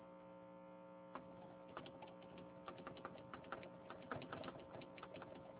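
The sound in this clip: A computer keyboard is typed on as letters are entered into Macaulay math software, the quiet, irregular key clicks sitting over a steady low electrical hum.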